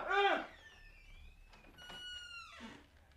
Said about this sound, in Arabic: وفتح الباب وتخطى الحجاب